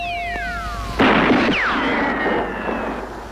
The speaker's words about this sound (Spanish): He disparado. ¿De dónde has sacado esto?